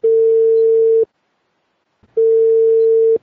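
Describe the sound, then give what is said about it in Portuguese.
Ringing tone of an outgoing telephone call as it is placed: two long, steady mid-pitched beeps of about one second each, separated by a one-second silence, with no voices. “Vamos ligar agora para ninguém menos que o pastor Assad Bechara.”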